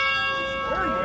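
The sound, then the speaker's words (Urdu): A bell rings at a history festival in South Riding, holding a sustained, loud metallic tone with several steady overtones that last through the whole short clip. “ماشومان رنګونه خوښوي، دوی د زنګ غږ خوښوي.”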